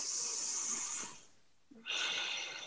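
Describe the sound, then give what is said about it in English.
A deep breath drawn into the belly: a long, airy, breathy rush fades into a short pause, then a second breathy sound starts and holds steady. No voices are heard. “take another deep breath into your belly”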